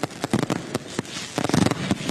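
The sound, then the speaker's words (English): Fireworks from nine-shot racks and repeaters go off in many sharp crackling bangs in quick succession, with a dense rapid cluster of pops near the end. “We're shooting off a couple of our favorites today, some nine-shot racks to get really high up there. And a lot of our repeaters, all of them are in our stores today.”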